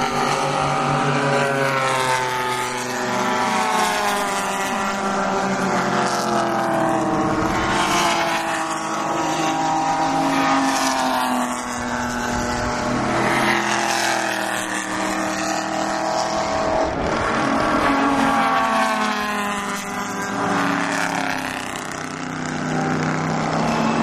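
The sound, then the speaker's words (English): Racing cars, including a Porsche and Mercedes-Benz cars chasing each other in an auto race, roar loudly and continuously, with several overlapping engine notes whose pitch swells and falls as the cars pass. “That's first, second, third right there. Third being a Porsche. Four Benz chasing each other.”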